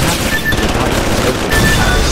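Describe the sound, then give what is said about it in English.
Pistol gunfire in a video game forms a loud, dense, continuous stream of rapid shots that barely lets up. “So, und noch eine Pistole, die wohl besser schießen kann. Wollen wir gleich mal ausprobieren.”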